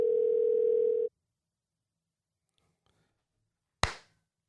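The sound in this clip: A steady telephone dial tone hums for about a second while a call is placed back, then cuts off into silence before a single sharp click.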